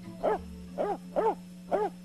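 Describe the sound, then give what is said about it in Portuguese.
A dog barks four times in an even rhythm, each bark short and sharp over a steady low hum, with no voices. “Ah, é o teu cachorro, né?”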